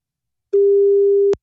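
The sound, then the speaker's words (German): German telephone ringing tone on a call line: a single steady mid-pitched beep just under a second long, heard alone and ending abruptly with a click. “Dum, dum, dum, dum. Aha, ein Freizeichen. Das ist schon mal gut.”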